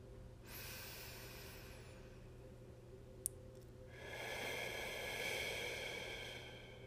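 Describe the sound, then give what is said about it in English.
A slow, deep breath makes a long, soft, breathy rush that swells louder in its second half, with a brief click near the middle. “take a second to settle in, appreciate where you are, and take a deep breath with me.”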